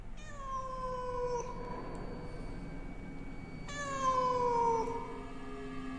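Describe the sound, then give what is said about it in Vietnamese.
A cat meows outside by a river: two long, drawn-out calls with a slightly falling pitch, a few seconds apart, fairly faint and alone, without voices. “Tưởng là mơ, ấy thế mà tiếng con mèo lại vang lên từ ngoài sông thật.”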